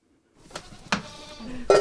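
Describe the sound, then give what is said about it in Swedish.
Goats bleat in the morning on a farm outside Sundsvall. A few short, nasal cries mix with brief knocks and clatter, and the loudest bleat comes at the end. “Ska vi heja på getterna? Säga god morgon.”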